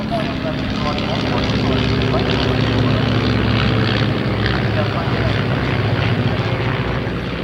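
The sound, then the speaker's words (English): A large group of propeller biplanes flies over a motor racing event, producing a loud, sustained engine drone beneath continuous talking. “oh wow, look at that huge selection of biplanes flying over.”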